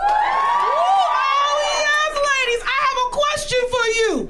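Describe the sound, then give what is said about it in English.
High-pitched shrieks and cheers from women in a comedy audience in L.A., several overlapping voices rising and falling in pitch, loud and lively, with shouts breaking up toward the end. “Can my ladies in the audience make some noise?”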